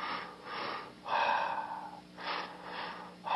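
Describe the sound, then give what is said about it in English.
Breaths from a breathing exercise, drawn in short stepped inhales, form a few airy, hissing breath sounds of rising and falling loudness, each lasting about a second, with brief gaps between them and no talk. “The third breath is a step breath on the inhale, a double step. So it's like this.”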